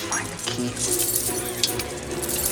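A big ring of keys jangles as different keys are tried in a lock. Light metallic clinks and jingles are scattered irregularly over a steady background.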